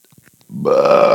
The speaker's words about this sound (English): he's burping